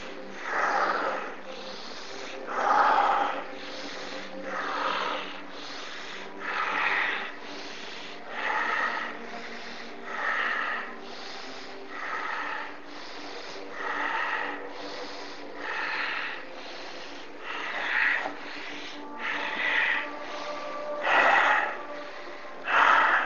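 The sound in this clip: Slow, deep breathing in an even cycle of many soft, airy inhale-exhale swells, each rising and falling at the same unhurried pace with quiet gaps between.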